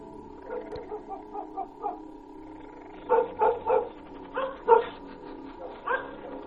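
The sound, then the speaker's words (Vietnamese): A dog barks fussily inside a house, letting out many short yaps in an uneven rhythm, with a louder cluster in the middle; the barking is fairly faint overall. “Ở trong nhà, con Vàng vẩu nó lại thò cái mõm ra mà sủa nhặng cả lên.”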